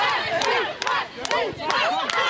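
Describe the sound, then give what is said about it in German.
A crowd cheers for the UH Adler women's team on a winning streak, with loud, rising and falling shouts and whoops coming in several surges over a bed of crowd noise. “Also Jubel und Applaus gibt's ohnehin schon für die Mädels.”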